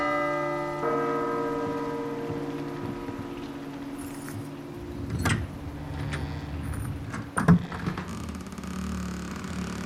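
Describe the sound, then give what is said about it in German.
A small bell rings softly in a tense scene, its bright sustained tones lingering for a few seconds before a few soft knocks and clatters follow. “Firlefanz, ich bimmel jetzt. Aber leise.”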